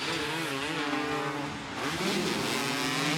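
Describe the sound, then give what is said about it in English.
Race car engines roar continuously during a race in which the leader is going for the win, a loud sustained engine drone with shifting pitch and harmonic whine, crowd noise blended beneath, no clear talk. “He's racing, and he's going for the win.”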